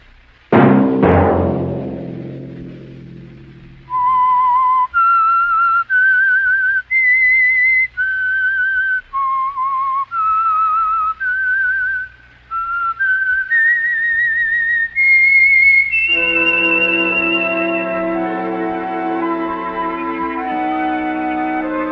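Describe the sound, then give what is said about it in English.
A person whistles a tune of many clear, high notes in an even rhythm, ending on a long held note with music joining beneath it, after a sharp ringing strike at the start. “Let that whistle be your signal”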